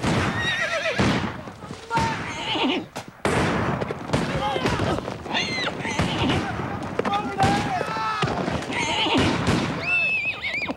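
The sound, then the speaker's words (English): Horses neigh and whinny again and again as they rear up and buck their riders during a Civil War skirmish, with loud, shrill cries over busy hoof clatter. “The horses rear up and buck their riders as Confederates snipe from the surrounding trees.”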